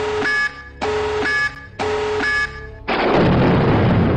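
A tactical nuke explosion sound effect: three loud electronic warning beeps, each lasting about half a second, then a sustained roaring blast of dense noise that carries on to the end.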